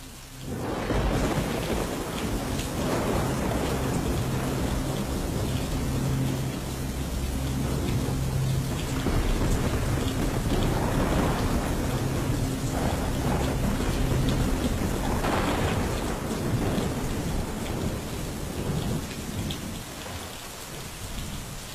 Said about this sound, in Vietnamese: sau đó chỉ là tiếng mưa rào rào cùng với tiếng sấm chớp vang rền trên tầng không